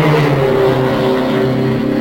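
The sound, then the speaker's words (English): IndyCar race cars circling an oval track, their engines making a loud, steady droning hum with sustained tones that hold evenly through the whole clip, with no voices over it. “The body of the cars in action are dropping down along the white line.”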